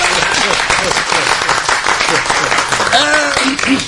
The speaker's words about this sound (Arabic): تصفيق على امي قميرة.